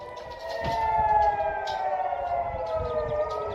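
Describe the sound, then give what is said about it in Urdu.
Rocket attack warning sirens sound to alert residents, a loud, sustained wail of several steady, overlapping tones that hold their pitch throughout, with no voices. “متعدد rocket حملوں کے باعث siren کی آوازیں سنی جا سکتی تھیں، جس سے رہائشیوں کو خطرے سے متعلق متنبہ کیا گیا۔”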